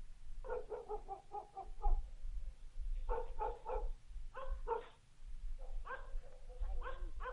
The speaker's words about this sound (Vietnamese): Đầu đó ho có tiếng chó cắn ma cứ nhấm nhẳng vang lên trong đêm tối.